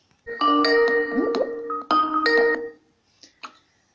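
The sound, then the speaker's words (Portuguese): A ringtone plays while placing a call for an interview: a bright chiming melody in two loud phrases, then a few faint, scattered notes. “Então, vamos ligar para ela.”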